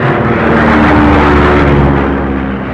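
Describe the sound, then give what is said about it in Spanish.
An aircraft engine starting to fail as fuel runs out in a storm: a loud, steady droning roar with layered harmonic hum that eases slightly in loudness near the end. “pero el motor empezaba a fallar.”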